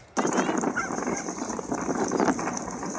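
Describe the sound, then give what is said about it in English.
A dog's noisy greeting: a loud, continuous jumble of excited vocal sounds and scuffling that runs without pause from start to end. “Dog, dog greetings. This is an awful one.”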